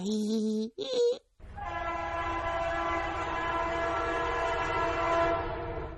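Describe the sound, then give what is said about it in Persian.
A train horn gives two short blasts, then one long, steady blast of several blended tones held loudly for several seconds. “البته تا حالا سوار نشدم، ولی از صدای صوت قطار معلومه خیلی توش خوش میگذره.”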